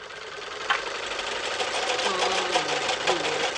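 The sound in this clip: A sewing machine runs steadily while winding thread onto a small bobbin with its built-in winder, giving off a noisy, continuous mechanical whir with faint rattling at an even level throughout.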